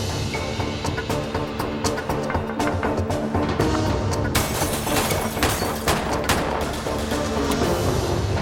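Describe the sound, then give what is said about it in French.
Gunshots fired in many rapid, dense bursts, forming a loud, continuous fusillade that grows sharper and heavier in the second half. “Le témoin entendit des coups de feu.”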